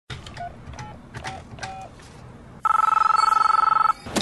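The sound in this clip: A telephone rings with a loud, rapidly warbling electronic ring that lasts just over a second, after a few short, faint tonal blips.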